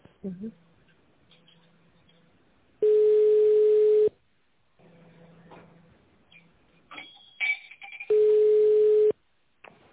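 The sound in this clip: Telephone line tone during a call transfer: two long, steady, mid-pitched tone bursts, each a little over a second, separated by several seconds of quieter line noise and faint voice-like sounds.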